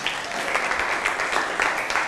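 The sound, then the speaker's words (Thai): Applause from a class of students clapping for a classmate: steady, dense clapping that holds evenly for about two seconds, with no talk over it. “ปรบมือให้กับเพื่อนหน่อย”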